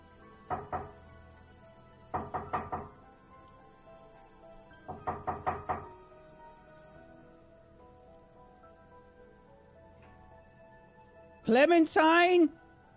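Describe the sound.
Knocking on a door downstairs comes in three separate bursts of quick raps with pauses between them, followed by a short call from a voice.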